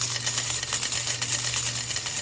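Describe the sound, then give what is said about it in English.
Coins tossed into a laundry machine, heard as a continuous stream of rapid, bright metallic clinks and jingles over a low, steady hum. “Then simply duct tape the shaker to the top of the machine. Toss in your quarters.”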